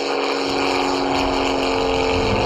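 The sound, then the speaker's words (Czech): An airplane flyover sound effect plays inside a museum lift on the way to an aviation exhibition in the Pardubice region. It is a loud, steady engine drone with strong sustained tones, holding level throughout. “Takže když se třeba jede z druhého patra do třetího, kde je výstava letectví, tak se ozývá zvuk přelétávajícího letadla.”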